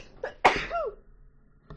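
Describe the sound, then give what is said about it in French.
A single sharp, explosive sneeze that follows a short, quieter intake of breath and trails off into a brief voiced tail before near silence. “Oh mon dieu, je vais éternuer.”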